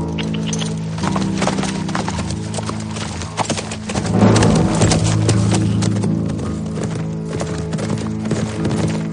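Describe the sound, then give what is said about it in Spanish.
A horse trots off toward a hillside, its hooves clip-clopping in a steady, brisk rhythm that carries through the whole passage and swells slightly midway. “Mira con recelo a su alrededor y emprende la marcha al trote hacia la ladera.”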